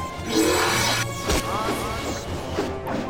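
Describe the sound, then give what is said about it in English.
A glass ghost jar shatters in a fantasy tabletop role-playing game: a sharp, loud smash with bright, scattering crackles and ringing glassy debris that fade away. “no, the ghost jar shattered! shouts one of the wizards.”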